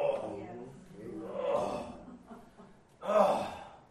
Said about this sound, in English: I can't say a word. All I can do is groan.